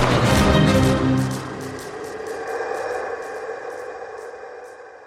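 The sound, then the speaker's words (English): A loud, booming blast from a giant creature's gun in a tabletop role-playing scene, followed by a long, fading rumble and faint, evenly spaced high ticks. “And I think the gun actually fires.”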